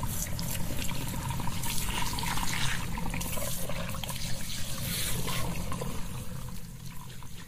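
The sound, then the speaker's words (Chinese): Hot water runs from a tap into a hair-washing basin, a steady, full rushing and splashing that stays even and fairly loud throughout without pause. “水开在这儿，把这个洗头盆泡满热水，让它浸泡着。”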